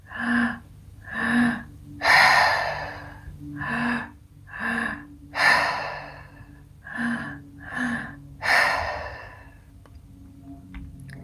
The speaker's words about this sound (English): So you inhale into the low belly through your mouth, inhale into the chest through your mouth, and exhale through your mouth. So it's like this.